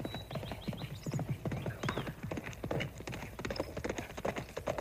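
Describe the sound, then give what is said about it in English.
Horse hooves clip-clop on a dirt road as a rider gallops, many quick, rhythmic hoof beats at a steady, fairly loud level through the whole clip. “it looks like a cowboy galloping toward me.”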